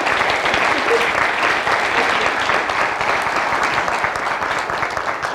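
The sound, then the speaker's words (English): An audience applauds during a church service with dense, steady clapping that holds at an even, loud level throughout with no talk over it. “Let's give them a warm congratulations.”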